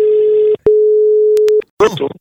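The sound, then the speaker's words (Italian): A steady telephone line tone sounds as a call is placed for a prank call, in two long unbroken stretches separated by a brief gap, followed by a short burst of voice. “Partiamo subito, vai telefono, vai ciccio.”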